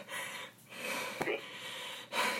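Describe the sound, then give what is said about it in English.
Heavy breathing from a man out of breath before a press conference, a few loud, ragged breaths with gasping and snorting edges separated by short pauses. “Let me catch my breath real quick, guys.”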